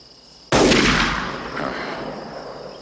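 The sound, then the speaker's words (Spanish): A gunshot fired during a film scene where shots go off in all directions: one sudden, loud blast followed by a long, slowly fading rumble that carries on to the end. “Dispara de nuevo. En todas direcciones,”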